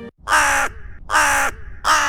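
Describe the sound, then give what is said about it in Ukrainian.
A crow caws three times, loud and harsh, each a broad raspy burst separated by short quiet gaps, with no voices. “Від тих слів ворона так стішилась, що забула за все та й гукнула:”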